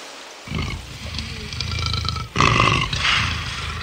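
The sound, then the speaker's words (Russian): A lion roars in a deep, rumbling, sustained growl that swells into a louder, harsher burst midway and keeps going to the end. “Лев, ну сейчас сразимся.”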